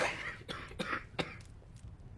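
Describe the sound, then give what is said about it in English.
Someone stifles a cough after wine goes down the wrong way, producing a few short, muffled, breathy bursts that stay quiet and held back. “drinks some wine which goes down the wrong way, coughs but tries to suppress the cough.”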